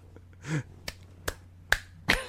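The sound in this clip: Four sharp hand claps, slow and evenly spaced, with a short pause between each. They are crisp and moderately loud against a quiet background.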